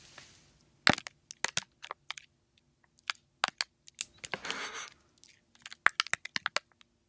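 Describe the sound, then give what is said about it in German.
Plastic packaging crinkles and crackles in quiet, irregular bursts: many sharp snaps scattered over a few seconds, with one longer rustling crunch in the middle. “Das war jetzt nur die Plastikverpackung. Das Geräusch war abgefahren, finde ich.”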